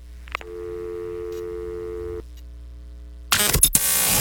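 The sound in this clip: A telephone tone after a call is hung up sounds as one steady, even tone for nearly two seconds and then cuts off. After a short quiet gap, a sudden loud burst of noisy sound follows.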